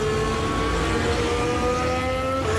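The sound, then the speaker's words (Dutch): Onboard engine sound from a Ferrari Formula 1 car during first free practice at the Azerbaijan Grand Prix: a loud, continuous, high-pitched whine with steady harmonic tones, holding nearly level with no talk. “Kijken wat de pijn is in de laatste sector voor het team van Ferrari. Boord bij Leclerc.”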